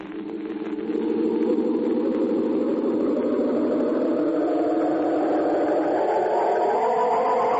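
A car engine running as the car is driven, a steady low droning hum that swells over the first second and then holds an even, unbroken level.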